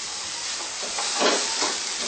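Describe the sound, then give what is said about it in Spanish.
Onion frying in a pan gives off a steady, dense sizzle and hiss that swells a little midway and then settles back to an even crackle. “Luego le echamos un poco de cebolla. Para darle un sabor especial.”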